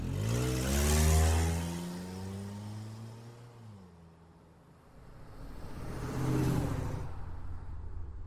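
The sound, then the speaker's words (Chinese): Car engine revving hard as the vehicle pulls away from a parking lot. A strong harmonic whine climbs, then the engine drops back and quiets before a second loud surge of revving near the end. “就急着发动了车子，风一样的驶离了停车场。”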